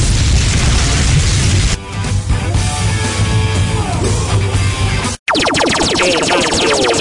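A fire jutsu explosion effect blasts out as a loud, dense roaring boom that churns on for several seconds, drops out for an instant near the end, then bursts back with harsh crackling.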